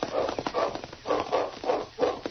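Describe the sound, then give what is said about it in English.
A dog barking on a trail, giving a steady series of muffled, evenly spaced barks. “Look, he's barking around the bend.”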